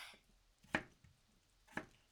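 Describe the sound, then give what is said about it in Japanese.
Two crisp knife chops through raw potatoes being cut into large chunks, short sharp strikes about a second apart, faint and alone with quiet space around them. “じゃがいもって大きめに切ってみるとちょっとおしゃれな感じがしない？だからお姉ちゃん、最近は少し大きめに切ることにしてるんだ。”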